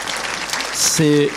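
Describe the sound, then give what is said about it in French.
Audience applause at an event honouring helpers and volunteers, a dense, steady patter of clapping that grows a little louder, with a voice briefly rising over it near the end. “si vous voulez bien les applaudir”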